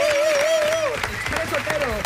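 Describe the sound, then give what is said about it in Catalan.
Applause from a studio audience greeting a guest arriving at a radio show. The clapping is dense and mixed with a wavering melodic tone that fades partway through. “Sí, Malcom Otero, un aplaudiment, per favor.”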